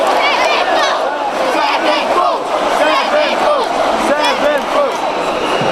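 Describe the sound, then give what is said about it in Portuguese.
A concert crowd at an Avenged Sevenfold show chants and shouts for an encore after the end of the set is announced, with loud, sustained massed voices rising and falling in waving cries. “Nesse momento ele anunciou o fim do show, mas a galera não vai deixar nem a pau.”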